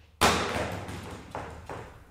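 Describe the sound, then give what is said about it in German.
A retro-style, barrel-shaped plastic solar LED lamp with a robust housing hits the floor with one sharp impact, followed by a few smaller knocks as the sound fades; fairly faint overall. “lässt eine Leuchte auf den Boden knallen. Das ist eben der Effekt.”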